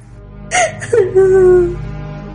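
A woman bursts into tears. Two short sobbing catches are followed by a longer, wavering wail that holds a fairly steady pitch before fading.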